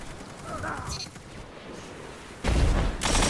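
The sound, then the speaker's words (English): A grenade explodes in a video game firefight, a sudden loud, rumbling blast that follows a stretch of quieter gameplay noise and holds heavy low-end energy to the end. “Put a grenade up there on them. Put a grenade up there.”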